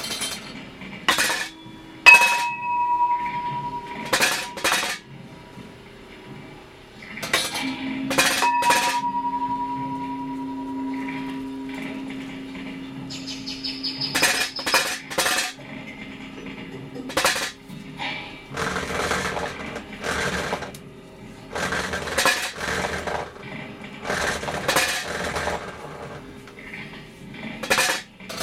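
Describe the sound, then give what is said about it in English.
Clinking and rattling from a homemade sound system built out of collected trash: many irregular metallic clinks and knocks, some ringing with sustained tones, with no talk. “So for me, it was collecting all this trash and building this sound system. The sound system that you're hearing now.”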